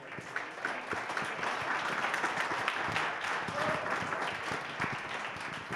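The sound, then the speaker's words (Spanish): An audience at a public forum on water in a desert region applauds the speakers. Dense, steady clapping runs throughout at an even loudness, with no break. “Les pido un aplauso para los ponentes porque también es cansado.”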